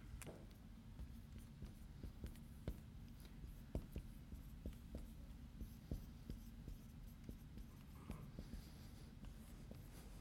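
Writing on a board during a sermon gives faint scratchy strokes broken by sharp little taps, spread unevenly over a low steady hum.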